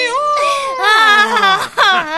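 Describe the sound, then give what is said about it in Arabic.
A child's voice crying in high, wavering sobbing wails, loud and close, its pitch sliding and sinking before a brief catch of breath and a final rising whimper. “ولماذا أنت تبكي الآن؟”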